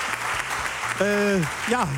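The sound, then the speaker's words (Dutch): Audience applause at a live event in Kampen honouring an Olympic champion, a steady crackling wash throughout with a couple of short tonal calls over it. “Dames en heren, geef een applaus.”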